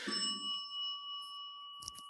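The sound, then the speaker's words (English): A bell rung once gives a bright, clear tone that holds steady and rings on for about two seconds, with a brief soft clatter near the end. “Just ringing a bell to ring a bell.”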